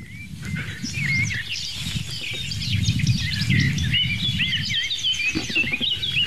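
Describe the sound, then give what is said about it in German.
Eurasian blackbird singing in the background, with fluty, warbling whistled phrases running through the whole clip over a steady low rumbling noise. “Schöne Amsel. Amsel im Background.”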